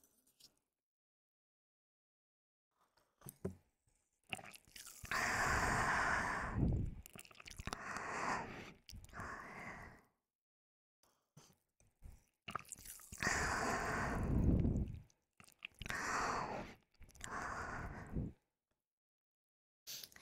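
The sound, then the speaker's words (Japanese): Close, wet ASMR mouth sounds of drinking into the ear, heard alone in two clusters of several soft sips and smacks separated by short silences. “耳でさ、飲むとさ、なんか口移してるみたいな音になる。”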